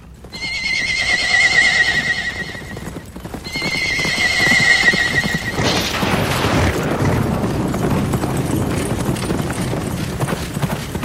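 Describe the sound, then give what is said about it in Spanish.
A horse gives two long, loud whinnies, then its hooves clip-clop at a slow walk while carrying a rider, a steady rhythm of hoofbeats running to the end. “como buscando que yo mirara atentamente al caballo de Eliseo, con este cabalgando sobre su lomo”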